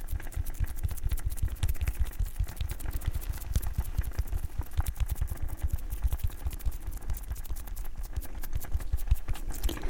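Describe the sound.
Hands rubbing oil into facial skin during a pampering session: dense, soft, slick crackling and patting at close range, a steady fine texture that continues evenly throughout.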